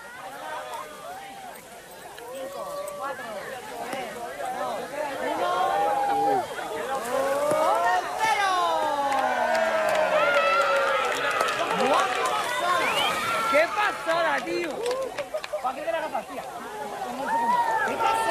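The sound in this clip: A large crowd in Spain reacts to a total solar eclipse with a dense mass of overlapping voices, shouts and whoops. The noise swells to a louder, sustained roar partway through and stays lively to the end.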